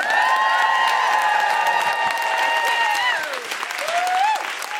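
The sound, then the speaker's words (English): Audience applause and cheering welcome a comedian onto a stand-up stage, a loud, dense wash of clapping with voices whooping and woohooing over it. The clapping eases slightly partway through. “Please welcome to the stage with general woohooing and thank yous, Jessica Fostercue.”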